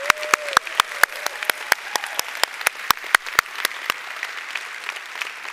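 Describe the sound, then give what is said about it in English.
Church audience applauding: sharp, fairly regular hand claps in a brisk rhythm that soften toward the end. “Let's give the Lord a hand today, church. Come on.”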